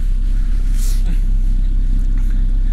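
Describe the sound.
A steady, low engine rumble comes from a car stuck fast with its wheels spinning. The noise holds at an even, fairly loud level throughout, with no clear rises.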